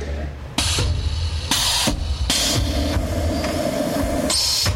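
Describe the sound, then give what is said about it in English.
A bag sealing machine runs in a belt factory, giving a few loud, harsh mechanical bursts over a constant clattering industrial drone. “What I basically do in this machine is I seal bags, you know, by pushing this button. There it goes.”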